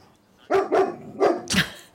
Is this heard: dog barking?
yes